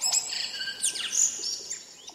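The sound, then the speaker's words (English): A tui bird from New Zealand calls in a run of high, sweeping whistles and chirps with quick downward slides, over a soft steady hiss. “Back in New Zealand, I'd enjoy listening to the beautiful call of the tui bird,”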